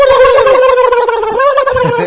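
A turkey gobbles in a loud, continuous, warbling call with rapid throaty fluttering, and its pitch wavers slightly throughout.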